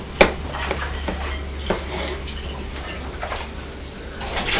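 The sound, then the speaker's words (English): Plates being washed up at a sink, with water swishing and sloshing and a few sharp clinks of crockery and cutlery breaking through the steady running noise. “Mummy's washing up the plates, isn't she?”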